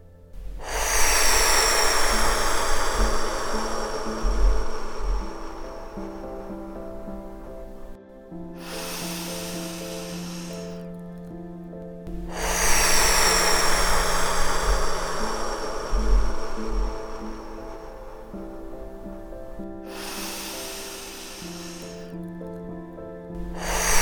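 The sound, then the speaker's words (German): Deep breathing: two long, airy cycles of slow inhales and open-mouthed exhales, each a strong, breathy rush, over a faint steady tonal background. “Atme erneut dreimal tief ein und mit geöffnetem Mund lange wieder aus.”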